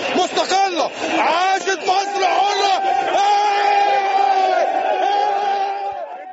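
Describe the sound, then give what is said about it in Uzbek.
A crowd in Tahrir Square, Cairo, cheers an announcement of a change of power. Many voices shout and chant together in loud, sustained, tonal waves that carry on without a break. “Hokimiyat almashgani to'g'risidagi e'lon Qohiraning Tahrir maydonida olqishlar bilan kutib olindi.”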